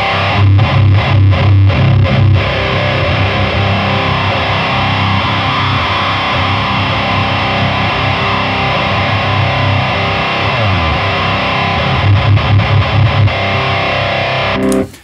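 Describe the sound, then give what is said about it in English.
Heavily distorted electric guitar through an HM2-style distortion pedal with a mid-band sweep control. A long, loud, saturated sustained chord is framed by rhythmic chugging at the start and end, with no talking. “sweep the center frequency of the mid band. You know, another way to find some slightly different takes on that HM2 sound”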